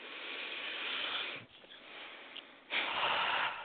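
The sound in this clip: A deep breath, heard as faint, soft airy rushes: a long breathy stretch, a quieter gap, then a strong final rush of air. No talk.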